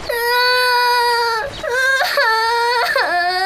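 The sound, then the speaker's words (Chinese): A child cries loudly on a beach: sustained, high, wavering wails broken by brief catching breaths and sobs, with no other voices. “哇，怎么又哭了？别哭了。”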